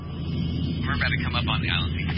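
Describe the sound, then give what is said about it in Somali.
Steady low engine drone of an airplane in flight, a crewed patrol aircraft designated HD-404, holding an even, continuous hum throughout with muffled voices heard over it. “VOA-da ayaa la siiyey fursad ay kula duusho wadayaasha dayuuradda HD-404.”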